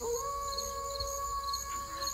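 Wolf howling: long, even, drawn-out tones held through the whole stretch, fairly faint, layered over a low rumbling background with no talking.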